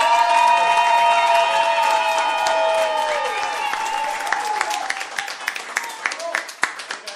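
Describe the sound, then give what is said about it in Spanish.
Loud applause from an audience greeting a young woman, starting as a dense wash of clapping that thins into scattered individual claps toward the end, along with a tonal sound at the start. “¡Un aplauso muy fuerte para la señorita Lali!”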